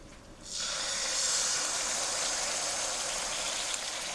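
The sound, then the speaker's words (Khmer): A steady sizzling hiss as thick, undiluted coconut milk goes into a hot cooking pot, the hiss rising quickly and then holding loud and even. “បន្តមកទៀតនេះខ្ញុំសូមដាក់ខ្ទិះដូង”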